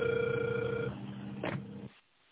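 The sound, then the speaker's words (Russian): A telephone ringback tone plays over the line while a call is dialing: one faint, steady tone, then a brief burst of line noise and hiss before it cuts out. “Я продолжаю дозвон. Пожалуйста, подождите немного.”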